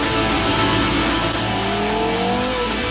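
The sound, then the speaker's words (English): A lightweight, stripped-back supercar engine with a carbon fibre cabin and magnesium transmission tunnel, roaring loud and continuous with a dense, gritty tone and no pause. “Carbon fibre here, a magnesium transmission tunnel, a simple beechwood gear lever. This is a supercar unplugged.”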